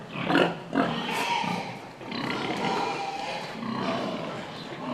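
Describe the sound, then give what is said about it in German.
Pigs grunt and squeal on a farm as a sow circles a boar. Two louder squeals come early, then a dense, continuous stretch of grunting and squealing runs without a break. “Die Sau, die hier um den Eber tänzelt, erwartet gleich ein seltenes Vergnügen.”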